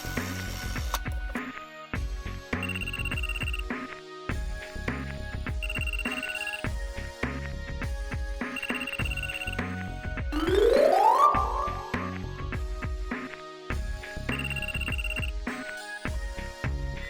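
A mobile phone rings with a melodic ringtone, a bright electronic phrase repeating steadily and fairly loudly for the whole stretch, with a brief rising sweep partway through and no voices over it.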